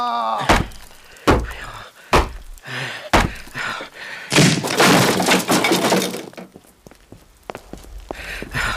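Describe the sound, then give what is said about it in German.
A door is forced open and broken down: a few heavy thudding blows land one after another, then a long, loud splintering crash, then scattered clattering and rattling debris as the noise dies away. “Sonst müssen wir die Tür mit Gewalt öffnen.”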